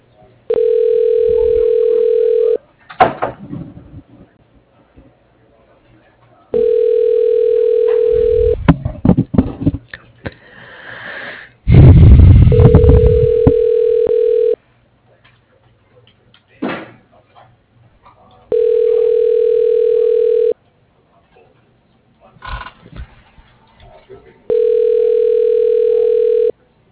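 A telephone line rings a number with five evenly spaced ringback tones, each a steady mid-pitched buzz of about two seconds followed by a pause. Clunks and bumps fill some of the gaps between rings.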